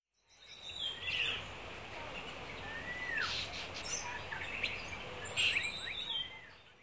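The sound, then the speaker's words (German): Birds singing in the early morning beside a listener up in a tree: a few faint chirps and whistled, sweeping calls, scattered over a soft, steady background hiss. “Am frühen Morgen wache ich auf. Die ersten Vögel singen neben mir.”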